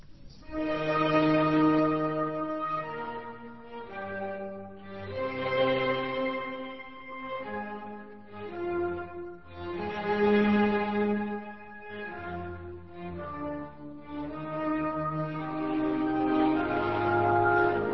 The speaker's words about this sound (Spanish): Vamos a escuchar ahora el segundo movimiento, es un adagio de esta sinfonía concertante de Mozart,